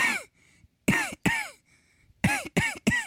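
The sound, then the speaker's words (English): A person imitates a dog's attention-seeking cough: six harsh, hacking coughs, one alone, then a quick pair, then three in rapid succession, all loud and rasping. “She does this coughing thing when she wants attention. So that she's like,”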